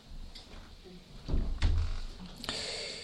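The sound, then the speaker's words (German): Windows being shut, with a few dull thumps and knocks of the frames closing, fairly faint over a quiet background. “Wir können das Fenster oder die Fenster wieder schließen.”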